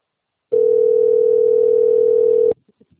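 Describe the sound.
A telephone ringing tone sounds as one steady, mid-pitched note held for about two seconds. It cuts off sharply, followed by a few faint clicks.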